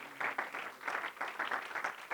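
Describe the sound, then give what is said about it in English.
Applause from a church audience welcoming a preacher to the pulpit: steady, dense clapping, soft and continuous without a break. “Put your hands together and welcome to Bendale again tonight.”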